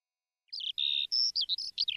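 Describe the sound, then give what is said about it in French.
A small canary chirps after half a second of silence, sending out a quick run of bright, high-pitched tweets and short trills in an uneven rhythm, clear and alone. “Il prit aussi avec lui, dans sa grande poche de manteau, son petit canari.”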